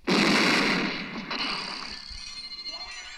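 A sawed-off shotgun blast from the 1973 film Coffy: one loud, sharp report at the start, followed by a long, rumbling decay that fades in ragged pulses.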